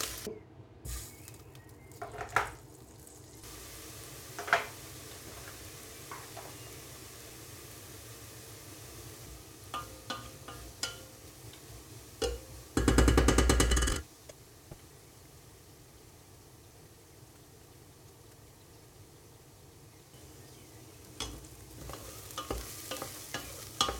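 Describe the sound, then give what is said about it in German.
Onions sautéing in a pan in the fat left from searing meat: a soft, steady sizzle with scattered clicks and scrapes of stirring, and one loud burst of hissing partway through. “So, das Fleisch ist jetzt leicht angebraten. Von dem her nehme ich jetzt kurz raus und dünste dann die Zwiebeln drin an.”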